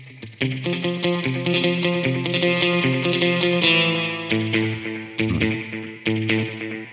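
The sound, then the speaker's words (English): Electric guitar played through a Kemper Profiler with a serial two-tap delay set for slapback echo: a run of many picked notes and chords, bright and sustained, with short gaps between phrases and no voices. “The serial two-tap delay is just a slapback echo, but normally you use a single delay with one repeat to get this”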